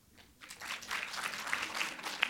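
Faint audience applause at a live show, answering a show-of-hands poll on food; near-silence gives way after about half a second to a soft, steady patter of clapping that continues to the end.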